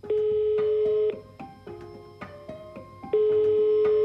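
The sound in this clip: Telephone ringback tones as an outgoing call is placed. A steady, mid-pitched tone sounds for about a second, a quieter stretch with faint clicks follows, and then the same tone returns at full level.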